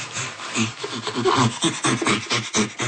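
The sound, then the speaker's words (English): An ape's panting, made while both inhaling and exhaling, comes as many quick, rhythmic breathy rasping pulses in a steady, moderately loud series. “panting comes from this inhalation and exhalation. And while inhaling, producing the sound, and while exhaling, producing the sound.”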